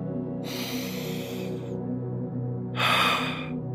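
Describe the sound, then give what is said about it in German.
A deep breath in crisp mountain air: a long, airy inhale followed after a pause by a shorter, stronger exhale, both clear over a steady low background hum. “Du machst nochmal einen tiefen Atemzug.”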